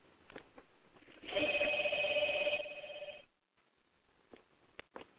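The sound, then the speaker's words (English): A home telephone rings in one sustained electronic trill lasting about two seconds, then falls silent, with faint clicks before and after. “my apologies, I forgot to take that phone off. So hopefully my husband will get that phone.”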